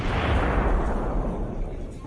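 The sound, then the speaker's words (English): Mortar shelling in the distance around a quiet, largely abandoned border town between Myanmar and China: a sustained low, rumbling roar that stays heavy and then slowly fades over about two seconds. “Mortar shelling can be heard in the distance.”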